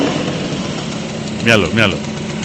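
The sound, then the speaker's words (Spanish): A humble Vespino moped engine idles with a steady buzzing drone, while a voice briefly cuts in twice over it. “os derretís con el sonido de un humilde Vespino.”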